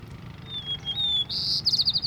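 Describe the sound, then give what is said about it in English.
White-crowned sparrow song: a clear, high, sustained whistle that shifts slightly in pitch, then a quick run of bright, clipped notes. It is fairly loud against a soft low background rumble. “white-crowned sparrow”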